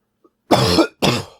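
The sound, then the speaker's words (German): Two harsh coughs in quick succession, the first longer and the second shorter and tapering off, with no talking around them. “Zum Glück bist du nicht krank. Und wir schneiden keine Huster raus heute.”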